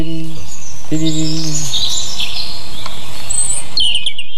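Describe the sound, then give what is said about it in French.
A European robin sings high, thin, metallic phrases of quick warbles and whistles that rise and fall in pitch. “c'est le rouge-gorge. Ah, c'était lui. Il est très métallique et il y a cette espèce de bille en suspension.”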